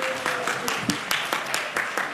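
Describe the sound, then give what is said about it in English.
Church audience applause for newly introduced children's directors: a steady run of evenly spaced claps with a quick, regular rhythm, fairly soft, with a faint voice at the start. “Give a hand clap for that, if you would, please.”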